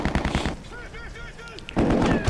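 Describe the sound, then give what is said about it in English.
Rifle gunfire from a low-budget film scene: rapid bursts of shots at the start and again at the end, separated by a quieter stretch. “The fire coming out of the rifles is fucking awful. CGI blasts.”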